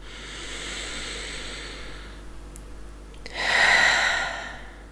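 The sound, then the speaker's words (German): A deep breath drawn in, a soft, airy hiss that swells for about a second near the end after a quieter breathy stretch. “atme tief ein und sage Ja zu diesem Montag”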